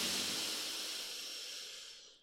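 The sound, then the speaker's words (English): A long, deep breath drawn in through the nose during a guided breathing exercise. It is a steady airy hiss that slowly fades over about two seconds and ends in a small click. No one talks. “let's take another big deep breath in through your nose.”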